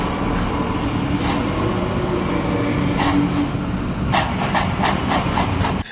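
Steady hiss and low rumble of a train standing at a station a minute before departure, continuous and fairly loud, with a few faint clicks near the end and no voices.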